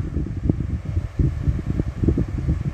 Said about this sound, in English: Every time the wind blows, there's just this empty howl,